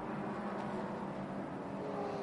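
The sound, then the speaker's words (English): Engine roar of a GS-class sports car field streaming past the start-finish line during a race, heard as a steady, dense rumbling drone. “as the GS field stream past the Ford Racing Global Broadcast Centre, the start-finish line, to start another lap there”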